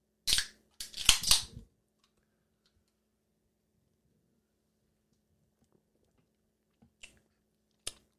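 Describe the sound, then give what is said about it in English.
A bottle of Creemore beer being opened: a short sharp crack, then a longer rustling hiss, followed by near silence and a couple of faint clicks. “This is going to be a light ale, just like the Molson Blue, I feel. It's maybe going to be a little bit stronger in taste. Let's try this Creemore.”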